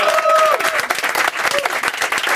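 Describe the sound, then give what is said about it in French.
Audience applause on a French-language evening talk show, a loud, dense burst of clapping from many hands that swells and dips slightly as it carries on. “Je pense qu'on a besoin d'une autre bonne main d'applaudissement pour Ken.”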